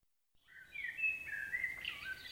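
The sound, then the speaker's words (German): Birds chirp in spring in one continuous high, warbling run of twittering notes that wavers up and down for about two seconds, alone and clear. “die Vögel sind zwitschernd aus dem Süden zurückgekehrt”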